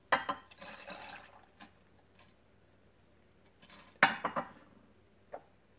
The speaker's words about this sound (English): First, I'm going to add 2 ounces of bourbon. I'm using Evan Williams Bottled and Bond.